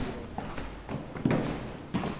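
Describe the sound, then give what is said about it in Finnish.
Footsteps climbing the stairs to an apartment in a suburb on the northwestern edge of Damascus: a few irregular, fairly faint thuds and scuffs, with two firmer steps standing out. “Nousemme portaita asuntoon Damaskoksen luoteislaidalla sijaitsevassa lähiössä.”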